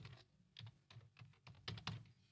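Someone types on a computer keyboard, entering a band name on a website: many soft, irregular keystroke clicks, quiet and alone without speech.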